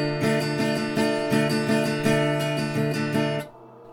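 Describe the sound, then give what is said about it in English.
A D minor chord played over and over in quick rhythmic strikes, many even pulses that keep a full ringing tone, then stop abruptly and leave near silence. “Second chord would be a D minor, which sounds like this.”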